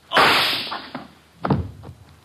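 A gunshot sound effect in a detective radio drama cracks out sharply and rings down, followed by a few softer thuds and knocks.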